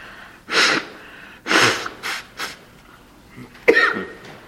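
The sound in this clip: Someone coughs from a tickle in the throat, letting out several short, harsh bursts separated by pauses, with one last forceful cough after a longer gap.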